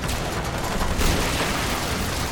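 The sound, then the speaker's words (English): Gunfire volley: a dense, continuous crackling roar of many shots merging together, loud and steady throughout with no gaps or voices. “Fire! Fire at will!”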